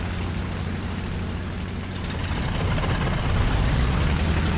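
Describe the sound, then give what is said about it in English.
Wildcat fighter planes take off from a carrier deck in a video game, a steady, dense engine roar that drones without a break and grows slightly louder in the second half. “And the carrier deck elevator is bringing the Wildcats up to the flight deck for launch. While the Wildcats take off, let's ready the next squadron for launch.”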